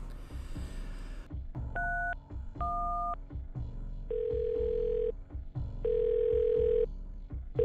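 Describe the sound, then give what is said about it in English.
A telephone receiver is lifted and a number dialed: a rustling handling noise, then two short dual-pitched keypad beeps, then two longer steady line tones, all over a low hum. “I picked up the receiver and called Karen.”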